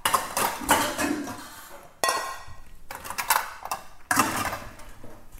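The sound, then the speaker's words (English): Dishes and cutlery clattering as a bowl and fork are fetched in a kitchen: repeated knocks, clinks and rummaging in several fairly loud bursts, with no talk. “So let me just get a bowl so I can mash it up.”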